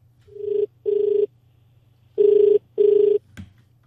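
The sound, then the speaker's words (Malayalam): A telephone rings for a call-in to a radio programme: two pairs of buzzy, steady double rings separated by a short pause, then a brief click as the line is picked up. “ഇനി നമുക്ക് ഇന്ന് വെള്ളിത്തിരയിൽ വിളിച്ചിട്ടുള്ള ആദ്യത്തെ വ്യക്തി ആരെന്ന് നോക്കാം.”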